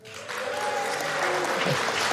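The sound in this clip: An audience claps steadily to welcome a guest, a professor of space law and policy. The dense applause swells quickly and holds at an even level for the whole stretch.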